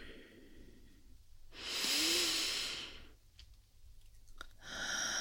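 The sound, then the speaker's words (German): Deep yoga breathing: one long, loud, airy breath swells and fades, then softer breath noise follows, and another deep breath begins at the end. “Tiefe Ein- und Ausatmung noch ein letztes Mal.”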